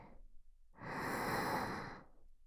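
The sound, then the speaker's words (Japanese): A single long, deep breath, soft and breathy, swells and fades alone in the quiet. “さあ、行くわよ。大きく息を吸って、”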